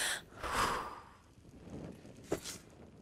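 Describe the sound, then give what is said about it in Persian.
A single deep breath: a soft, airy inhale swells and fades early on, then quiet follows, broken by a faint click and light rustle near the end. “نفس عمیق،”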